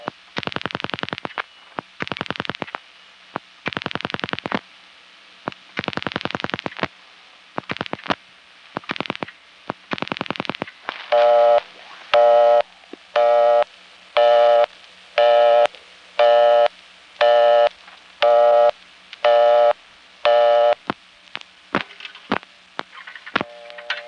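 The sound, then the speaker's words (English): A telephone dials a local 968 number with a run of uneven tone bursts. A steady, evenly pulsed busy signal follows, beeping many times at the same pitch. “Let me dial my own 968 number.”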